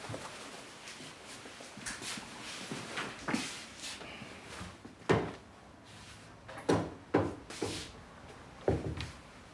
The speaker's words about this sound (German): Ich mach dir einfach in den Schrank, okay?